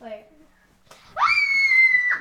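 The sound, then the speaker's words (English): A quick scream into a pillow: a single high-pitched cry that rises sharply and is held for about a second, after a moment of brief talk. “That was into a pillow, actually. That was a quick scream into a pillow there.”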